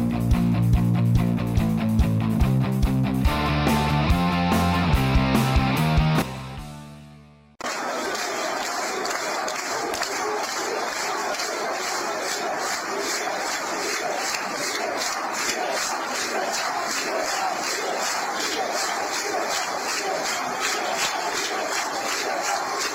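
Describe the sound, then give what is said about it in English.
Thousands of Cubans protesting and chanting outside the National Capitol building in Havana, a loud, dense roar of massed voices chanting steadily and without letup, preceded by several seconds of music that fades out before the crowd begins. “That was thousands of Cubans protesting outside of the National Capitol building in Havana, chanting”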